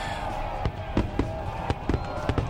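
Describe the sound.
Fireworks exploding in a quick, irregular string of sharp pops and bangs, fairly faint over a steady background hiss.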